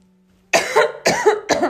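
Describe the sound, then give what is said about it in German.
A person coughs three times in quick succession, each cough a sharp, rough burst starting from near silence. “sorry, ich muss mal husten.”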